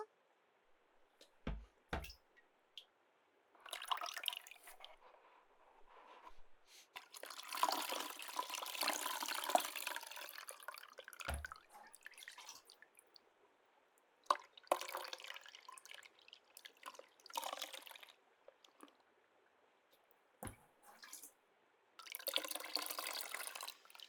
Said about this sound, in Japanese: もう浸透しているはずなので、トリートメントを流しますよ。